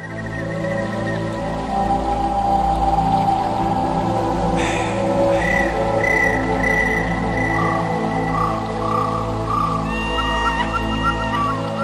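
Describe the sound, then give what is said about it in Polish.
Wind whistles in thin, wavering high tones over a steady low wash of water flowing under a kayak, the rush continuous beneath the intermittent whistles. “Być może wtedy też tak świszczał wiatr i tak grał na różnych dziwnych instrumentach i słychać było wodę, która przepływa pod łodzią, pod kajakiem. Posłuchajmy.”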